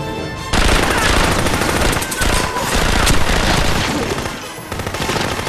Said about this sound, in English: They shoot some of Juma's men. Jack, lying among a tangle of bodies, grabs a weapon and does likewise.